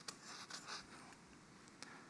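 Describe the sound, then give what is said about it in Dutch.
A pen writes a name: faint, short scratchy strokes come in an irregular rhythm, alone and without talk. “Dan schrijf je je naam op. Ik doe het alvast.”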